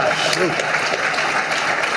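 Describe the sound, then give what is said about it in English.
Applause from an audience at a speech: dense, steady clapping that fills the whole moment at an even loudness, with faint voices mixed into the noise. “I hope those weren't reporters clapping.”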